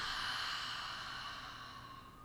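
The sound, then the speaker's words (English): A long, audible open-mouth exhale after a deep cleansing breath during guided relaxation, a soft breathy rush heard alone that slowly fades. “Now take another big cleansing breath in through your nose. And open audible exhale.”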